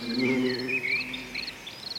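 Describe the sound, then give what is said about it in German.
Crickets chirping on a warm summer day among green, overgrown slopes and rocks: a steady shrill pulsing chirr runs high above a lower, continuous droning buzz, with no voices. “Die Vögel zwitschern, die Bienen summen und die Grillen, nun ja, die zirpen.”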